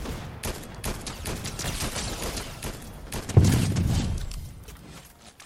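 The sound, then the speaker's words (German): Gunfire aimed at the player in a shooter video game: many rapid shots crack in dense bursts throughout, with a heavier low boom midway that briefly swells the loudness. “Da hinten war keiner da, hat gerade jemand auf mich geschossen.”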